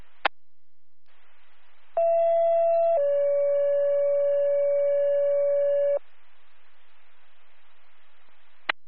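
EMS dispatch paging tones come through as a two-tone page: a steady higher tone for about a second, then a longer lower tone for several seconds. Faint radio hiss surrounds it, with sharp clicks at the start and end.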